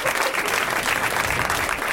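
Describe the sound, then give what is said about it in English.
Audience applause fills the whole moment: a dense, even clatter of many hands clapping at steady loudness. “Way to milk the applause.”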